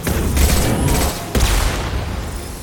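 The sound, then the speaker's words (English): Rocket shots in a video game form a dense, continuous barrage of loud booming blasts, with one sharp, sudden blast partway through. “A lot of rocket shots.”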